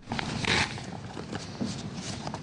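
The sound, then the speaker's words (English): Paper rasps and tears as an envelope is opened to announce the host city of the 2010 Winter Olympic Games. A short, loud rip is followed by softer rustling. “Today, millions of people around the world turn their attention to the simple act of a man opening an envelope.”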